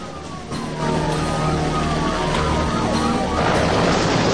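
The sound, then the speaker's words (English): Sirens wail from dozens of police patrol cars swarming into view. Several overlapping tones sweep downward over a steady engine rumble, and the sound grows louder toward the end. “As the dust settles, they see dozens of patrol cars swarming into view ahead of them.”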